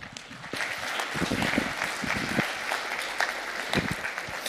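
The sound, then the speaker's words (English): An audience applauds to welcome a speaker to the stage. The clapping swells after half a second into a full, steady wash of many hands that continues for about four seconds. “Give him a hand, would you?”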